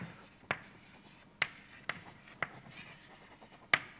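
An equation with a logarithm written by hand during a physics lecture on disordered systems: several sharp taps with faint scratching between them, and no voices.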